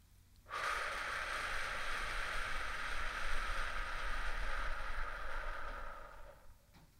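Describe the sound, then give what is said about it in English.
A slow, extended exhale during a breathing exercise makes a steady, breathy hiss. It lasts about six seconds, holds an even level, then tapers off softly at the end, with no talk. “So let's say I breathe in for 4, right? I'm at the top of 4. I want to breathe out for 6.”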